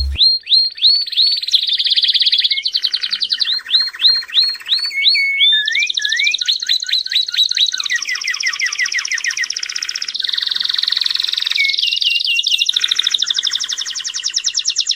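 Songbirds sing loudly in the morning outside a house, a dense, unbroken run of bright chirps, rapid trills and repeated whistled phrases that changes pattern from phrase to phrase, with no voices.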